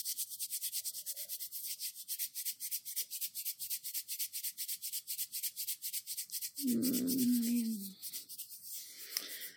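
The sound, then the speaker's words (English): Rhythmic rubbing runs throughout as many steady up-and-down strokes with a soft swishing texture. A short voiced sound breaks in near the end. “I'm just giving you a little rub.”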